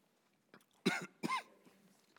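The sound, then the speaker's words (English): A person has a coughing fit: two strong, rough coughs in quick succession, with a few fainter throat sounds before and after. Quiet otherwise. “let's do this because I'm about to have a coughing fit.”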